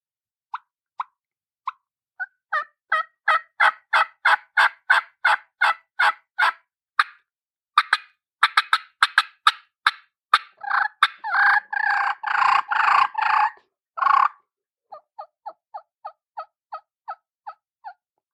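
A reed game call blown by mouth gives long series of sharp, evenly spaced yelping notes. A dense, fast run of raspy notes follows, then a tapering string of short, quieter notes at the end.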